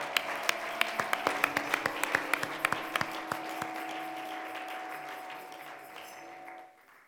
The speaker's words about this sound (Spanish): Un aplauso al Señor Jesucristo.